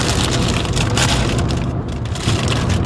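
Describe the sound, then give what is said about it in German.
A bag of Mediterranean-style crisps with olive oil being opened: loud, dense crinkling and crushing of packaging that runs steadily for a few seconds without a break. “Ja, Chips gekauft eben. Die guten von Base. Ja. Mediterran mit Olivenöl. Sollen wir mal aufmachen?”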